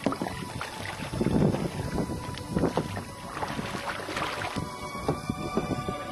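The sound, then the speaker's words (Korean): Kayak paddling on the water among the islands of Ha Long Bay: irregular watery swishes and splashes from the paddle, carried over a steady bed of wind noise, with no voices. “카약을 타고 한 바퀴 돌다 보니”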